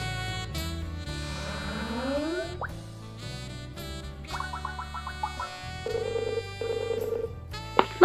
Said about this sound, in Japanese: それでは早速スカイプでつないでいこうと思います。